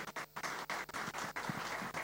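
Audience applause greets two singers on a live music show, a faint, dense patter broken by a few short gaps.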